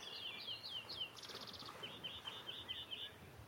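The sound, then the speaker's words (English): A greenfinch sings beside a natural lake in Wales, a faint run of quick, high chirps and trills repeated in short phrases over a soft background hiss. “There's a green finch singing here.”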